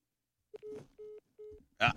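A phone being dialed on a call gives three short, steady electronic tones of equal pitch with brief gaps between them, followed by a short noisy burst.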